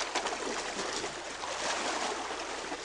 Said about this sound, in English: This is the sound of a balsa raft at sea.